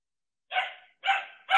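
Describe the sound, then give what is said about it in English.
A small puppy barks from behind two closed doors: three short, fairly loud yapping barks spaced about half a second apart, the last one cut off. “I can hear your sweet little puppy there. He is like behind two doors. He's so loud.”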